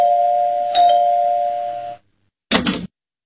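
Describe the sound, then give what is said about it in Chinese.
An electronic doorbell rings inside a home, a single steady chime tone held for about two seconds before cutting off, followed by a brief separate burst of sound. “不一会儿啊，家里的门铃就响了。”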